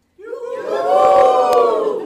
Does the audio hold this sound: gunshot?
no